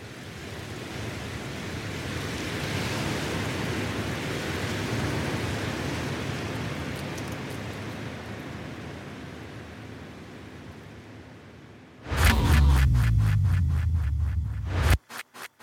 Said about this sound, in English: Let's take a break. Let's listen to the sound of wind blowing on the beach.